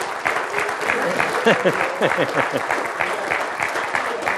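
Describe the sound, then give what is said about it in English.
Steady, sustained applause from a church audience for its worship team. Many hands clap at once in a loud, even wash that holds throughout. “Let me give those guys a hand. Anybody on the worship team?”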